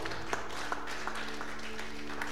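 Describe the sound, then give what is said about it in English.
A church audience claps during a sermon on growing faith, a steady, fairly faint wash of applause with a few sharper claps standing out. “If it's a good thing, it's a good thing for you to clap.”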